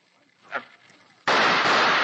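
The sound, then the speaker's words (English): A gunshot fired during a tense hostage standoff: a faint brief sound, then a sudden loud blast with a sharp onset and a harsh roar that holds steady to the end. “Then I'll have to shoot him. That takes care of you, Lefty.”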